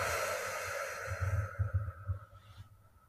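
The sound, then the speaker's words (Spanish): A slow, deep breath in and out, drawn as soft, airy breathiness that swells and then fades, with faint low tones beneath it and no talking. “Vamos a respirar profundo. Inhalan. Suelta.”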